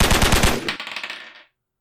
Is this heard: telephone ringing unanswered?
no

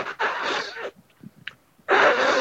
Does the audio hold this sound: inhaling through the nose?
yes

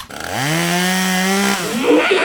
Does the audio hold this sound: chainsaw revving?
yes

